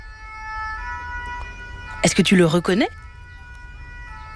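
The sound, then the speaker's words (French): A fire engine siren plays from a loudspeaker as steady high tones held throughout, with a voice speaking briefly over it midway. “Oui! C'est le son d'une sirène de pompier. L'alarme très très forte qui prévient les automobilistes que le camion va passer”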